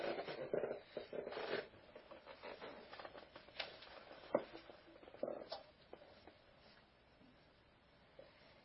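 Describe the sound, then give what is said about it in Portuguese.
Faint pen scratching as someone writes something down by hand: a run of short, irregular strokes and rustles, busier in the first half and thinning out toward the end. “Espera aí, vou escrever aqui.”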